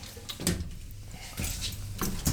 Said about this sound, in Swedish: Men den sa ju stäng luckan. Så nu gör jag det, om det går.